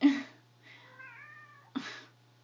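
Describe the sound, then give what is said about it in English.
A house cat meows for attention: a few drawn-out, tonal cries, the middle one long and wavering. Moderately faint, with no other sounds. “my fucking cat wants attention, sorry.”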